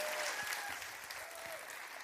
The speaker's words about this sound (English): Would you please put your hands together and welcome Pastor Lucas?